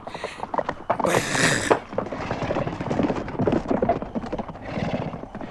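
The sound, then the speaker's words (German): Hoofbeats of horses ridden through thick fog near a river make a brisk, uneven clip-clop that runs through the whole clip. A loud, high whinny breaks in near the start. “Ist Winnetou sicher, dass wir nicht im Kreis reiten?”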